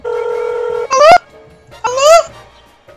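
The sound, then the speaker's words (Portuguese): A steady electronic telephone tone holds for just under a second while a call is being placed. It is followed by two short, loud bursts of sliding, voice-like sound. “Eu liguei pro José de novo.”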